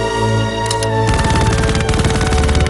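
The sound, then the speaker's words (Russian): Automatic weapon fire in a film scene breaks out after about a second as a rapid, loud, continuous burst over sustained background music tones. “Павловский оборачивается, стреляет из автомата. Таманцев падает, ползет по траве. Павловский ведет огонь.”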